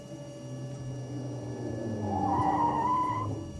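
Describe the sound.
Tires squeal as a car skids and nearly hits someone: a low engine rumble runs throughout, and a sharp, slightly rising squeal breaks over it in the second half before cutting off.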